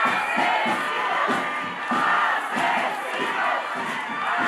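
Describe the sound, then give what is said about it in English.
An outraged protest crowd chants in a street in Ecuador, many voices shouting together in a steady rhythmic beat of repeated syllables, loud and dense throughout like a battle cry. “That's the sound of outraged Ecuadorians chanting killers.”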